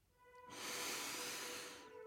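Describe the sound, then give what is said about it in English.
A single long, slow breath taken while sitting in the moonlight: a soft, airy rush that swells in and fades over about a second and a half, faint and alone, with no talking. “I think I'm just going to sit here in the moonlight and take a few deep breaths.”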